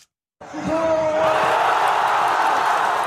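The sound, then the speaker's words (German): Thousands of football fans cheer at a public viewing in Gaza City, some standing on rubble, as Egypt takes the lead against Argentina in a World Cup match. After a brief silence, a loud, sustained crowd roar erupts, with a whoop rising above it. “Tausende Fußballfans beim Public Viewing in Gazastadt sind völlig aus dem Häuschen.”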